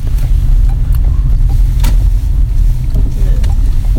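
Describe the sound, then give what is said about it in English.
A car jolts over potholes, its loud, constant road rumble broken by a few sharp thumps as the suspension takes the hits. “We're going to have to get our suspension fixed by Canadian Tire. I bet that's who put that there. They put those potholes there.”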